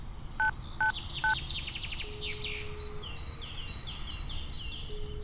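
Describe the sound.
Three short touch-tone keypad beeps as a mobile phone is dialed in a park. They come evenly spaced in the first second and a half, with steady bird chirps and twittering carrying on throughout.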